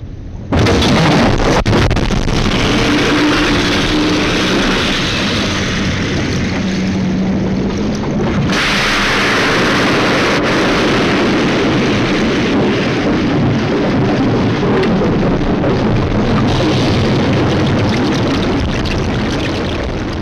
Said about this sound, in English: The range of the torpedoes is secret, but when they are fired off, they sound something like this.